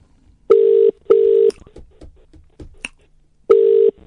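Ringback tone of an outgoing telephone call that nobody answers: loud, steady tone bursts in a double-pulse pattern, a pair of short rings, a pause with faint clicks and rustles, then the next ring starting.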